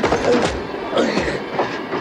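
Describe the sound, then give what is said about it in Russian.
A train pulling away on a snowy scene, a continuous rumbling rattle with rhythmic clickety-clack wheel noise at a steady, fairly loud level. “Поезд уходит, Иван падает на снег.”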